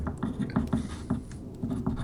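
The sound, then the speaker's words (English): A pen scratching on paper as someone writes a spelled-out word by hand: short, scratchy strokes in a few quiet clusters, with a brief pause between them. “I can hear you writing.”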